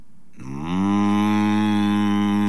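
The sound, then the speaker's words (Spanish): A human voice imitates a cow's moo, starting with a short, low onset and swelling into a loud, steady, deep droning tone held for about two seconds, with no other talk. “Dame el celular y te mujo.”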